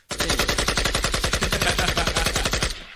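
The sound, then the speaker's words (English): Rapid automatic gunfire from a video game: one long, unbroken burst of many sharp, evenly spaced shots. It is loud and heard alone, lasting nearly three seconds before it stops abruptly. “I'm gonna need you to stop shooting up this place, all right, bro? Like you got no bullets left.”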